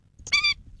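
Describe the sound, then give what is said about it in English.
Single brief, nasal, honking call of an Indian skimmer, an orange-billed water bird of South Asia. The harmonic note lasts well under a second and is heard alone. “That's the sound of the Indian skimmer, a unique orange-billed water bird native to South Asia.”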